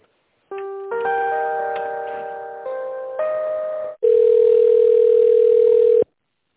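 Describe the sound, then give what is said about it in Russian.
Electronic telephone tones play while a call is transferred: a few stepped chiming notes, then a loud, steady tone held for about two seconds before it cuts off. “Давайте я соединю вас в бухгалтерии.”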